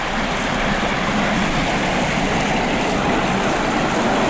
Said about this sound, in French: Je me situe au bord de la route goudronnée qui mène au lac des Bouillouses